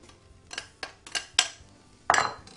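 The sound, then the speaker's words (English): Knife chopping a steamed potato on a cutting board, several separate muted knocks at an uneven pace, the last one heavier and more clattering. “I'm also going to chop up a potato”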